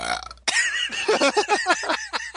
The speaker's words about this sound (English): First the throat, and now the burping.